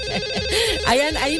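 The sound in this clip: An electronic ringtone signals an incoming call to a telephone in a studio booth, a loud melodic pattern of warbling tones that sounds steadily through the whole short moment.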